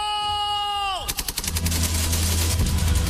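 Gunfire recreating a Chaco War battle: a falling whistling tone drops away, then a rapid volley of sharp shots breaks out and gives way to a sustained rumbling roar.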